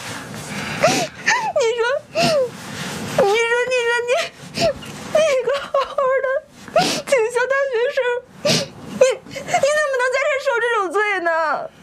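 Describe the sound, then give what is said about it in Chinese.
A woman cries, breaking into wavering, high-pitched wails and whimpers in bursts of several seconds, with short gasping breaths and pauses between the sobs. “姐，你怎么了？”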